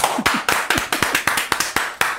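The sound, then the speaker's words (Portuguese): Rhythmic hand clapping for a year-end talent-show act: eight sharp, evenly spaced claps, each a crisp loud smack with a quick decay, keeping a steady tempo of roughly four claps every second. “Vamos aplaudir, Alexandre Moreira.”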